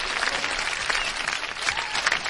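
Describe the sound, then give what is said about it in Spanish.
Audience applause at a live Spanish show: a dense, steady wash of clapping that holds at an even level throughout, with no clear voices. “¡Un aplauso para todos los del mercado de abastos!”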